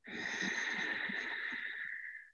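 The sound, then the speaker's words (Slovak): Deep breath drawn in through the nose during a guided breathing exercise: one long, steady inhale with a slightly whistling, airy tone that fades at the end. “Takže dovol si dýchať veľmi hlboko. Hlboký nádych nosom.”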